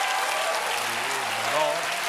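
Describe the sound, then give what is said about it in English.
Applause from an audience of parents, a steady dense wash of clapping that runs loud and even for the whole stretch, with a voice faintly audible beneath it partway through. “That is actually all the parents clapping because they know that joke is true.”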